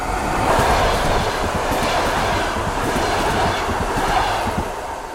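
A train passes through a station with a loud, steady rumble and a rhythmic clickety-clack of wheels on the rails. The sound holds at an even level for the whole stretch, with no voices.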